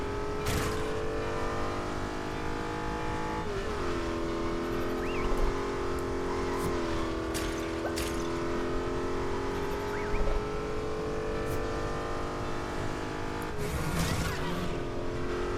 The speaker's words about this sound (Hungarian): Az mondjuk vicces, hogy így neki mész a LEGO járműveknek, és így kirepülnek belőle a LEGO emberek az összetört autókból.